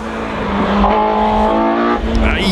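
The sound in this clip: A car engine accelerating hard, used as a time-travel sound effect: a loud, sustained harmonic roar holds steady, then sweeps sharply upward in pitch near the end.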